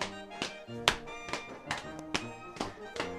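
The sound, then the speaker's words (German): Boys stamping their feet at the opening of a folk dance: a steady rhythm of dull thumps, about two per second, over faint instrumental music. “Also die Buben stampfen am Anfang so mit den Füßen und halten die Hände so in Schulterhöhe. Dann geht's los.”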